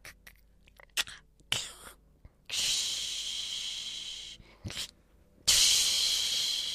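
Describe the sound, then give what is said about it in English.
Sizzling of an egg frying in a pan: a few short clicks and bumps, then a steady bright hiss, a brief gap with a small burst, and the hiss returns louder until the end. “You crack an egg into the pan, it cooks, and you turn it over.”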